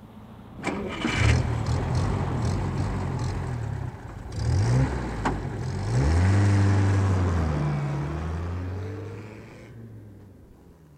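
A car engine cranks and catches, then revs with a rising, droning pitch as the car drives away, the sound thinning and fading out near the end.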